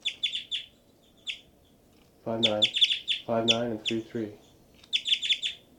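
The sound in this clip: Two birds call and answer each other in bursts of rapid, high-pitched chirps, with longer exchanges near the end. A person talks over the middle stretch.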